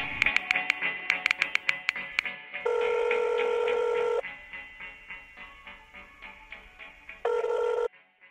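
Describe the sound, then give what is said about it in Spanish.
An eighties-style telephone rings. Rapid clicking pulses come first, then two long, bright electronic rings separated by a stretch of softer rhythmic ticking, loud and with no voices. “¿qué es esto? ¿Una llamada telefónica?”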